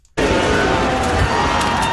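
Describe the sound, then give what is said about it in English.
Fans cheering during Canada's first World Cup knockout match against South Africa, a crowd roar that bursts in suddenly after a brief quiet and stays loud and dense throughout. “And hundreds of fans across the country are cheering as Canada's first FIFA World Cup knockout stage match is now underway.”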